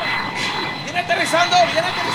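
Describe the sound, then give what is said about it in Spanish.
Airplane arriving and landing at Tolú airport, its engine roar a steady wash beneath a crowd shouting and cheering. “tenemos el video de la llegada del avión al aeropuerto de Tolú en estos momentos.”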